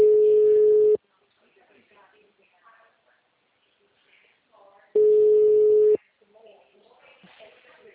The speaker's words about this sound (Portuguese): Oi, caiu a ligação.